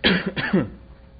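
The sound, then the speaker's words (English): Throat clearing and a rough cough from someone whose allergies are acting up, one short raspy burst lasting about a second before falling quiet. “My allergies are really kicking in today. So if I start coughing, please bear with me.”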